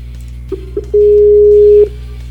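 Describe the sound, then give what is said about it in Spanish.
Phone call tones sound while a call is restarted: two short beeps, then a steady mid-pitched tone held for about a second before cutting off. “Vamos a reiniciar la llamada. A ver si así se controla.”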